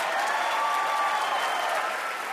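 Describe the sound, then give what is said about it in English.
Audience applause for a quiz show's grand winner: dense, steady clapping that holds at an even, fairly loud level from start to finish with no voices over it. “Clearly a close match, but congratulations, Keith. Have another hand for our VIP, John Darnielle.”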